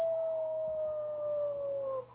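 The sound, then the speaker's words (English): A person imitates a wolf howling at the moon with a single sustained, fairly pure tone. The tone slowly falls in pitch for about two seconds, then cuts off. “Howl at the moon.”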